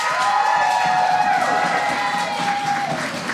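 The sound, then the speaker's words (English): Audience applause and cheering for poets at a poetry slam, a loud, sustained crowd roar of clapping and voices that holds steady throughout. “So we do have to say goodbye to three poets, unfortunately. So please, a round of applause for Kyra. Awesome. For Jasmine.”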